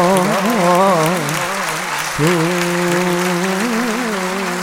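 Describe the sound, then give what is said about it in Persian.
Audience clapping for Imam Reza at a devotional gathering: a steady wash of hand claps runs throughout beneath a sustained, wavering singing voice. “اگه برای امام رضا دست میزنی باید با جون دست میزنی.”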